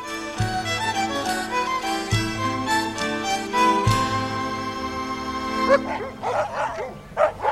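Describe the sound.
Dogs barking and yelping in Margate, with repeated bursts of loud, tonal, whining barks, then a few sharper, higher yips toward the end.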